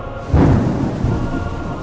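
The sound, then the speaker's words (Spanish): A loud thunderclap during a violent storm bursts in abruptly and rolls on as a heavy, sustained low rumble that slowly eases. “La tormenta irrumpió con fuerza. Los cristales de las pequeñas ventanas de ventilación temblaron.”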